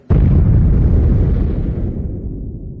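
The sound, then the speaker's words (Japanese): A bomb explodes in one sudden, loud boom. Its deep, rumbling roar fades slowly over about two and a half seconds. “あ、やばい。そろそろ爆発すんな、これ。”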